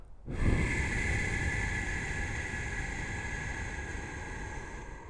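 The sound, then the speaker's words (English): Slow, steady breathing during a guided breathing exercise, heard as one long, even breath of soft airy noise that starts abruptly and holds for several seconds, fading only slightly toward the end, with no talking. “Breathe in, three, hold, and out.”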